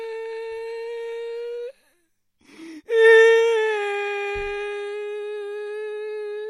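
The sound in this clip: A small child crying on a beach after waves wash away a sand mountain, two sustained high wailing cries separated by a short break with a brief sob between them.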